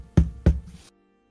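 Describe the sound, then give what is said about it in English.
Two faint knocks on a door land a short, uneven gap apart, each a low, dull thud with a brief rattling tail, then silence. “the last door on the right, uh, there is a faint knocking. It's erratic. It's not rhythmic in any way.”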